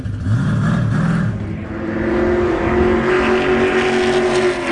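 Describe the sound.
A car engine roars at full throttle on a race track, a loud, continuous, steady drone with a strong tonal hum that holds throughout.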